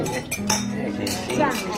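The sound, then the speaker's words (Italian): Glasses clink in a toast among friends: a few bright, ringing taps of glass on glass, scattered among voices talking. “in alto i calici alla nostra bella amicizia di Ferragosto. Cin cin”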